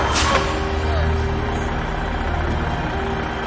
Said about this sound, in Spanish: Ella se detiene en mitad del camino. El camión frena.